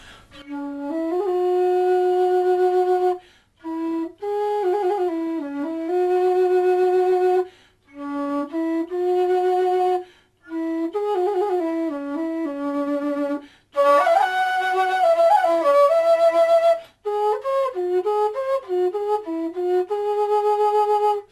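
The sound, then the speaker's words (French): A wooden Vietnamese flute, built on the same principle as South American flutes, plays a soft, mellow melody in several phrases split by short breath pauses, with a quicker, busier run in the middle and no voices. “C'est le son d'une flûte qui vient du Vietnam, ce qui est assez paradoxal en fait, parce que ça a plutôt un son du sud”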